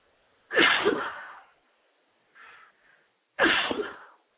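Two loud, explosive sneezes from a person, about three seconds apart, with a brief faint breathy sound between them and quiet on either side.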